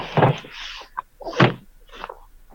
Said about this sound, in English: No, that's a Foden fridge door.